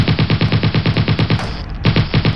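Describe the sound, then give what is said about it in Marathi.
An automatic machine gun firing wildly from cover behind a huge tree: a rapid, loud, even rattle of shots that pauses briefly in the middle, then resumes at the same fast rhythm. “एका प्रचंड वृक्षाआड दडलेल्या दहशतवाद्याने automatic machine गनमधून अंदाधुंद गोळीबार केला.”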